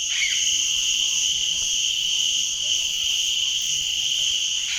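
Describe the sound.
Crickets and other insects fill a jungle at dusk with a loud, continuous chorus. The high-pitched trilling holds steady from start to finish, with no pauses.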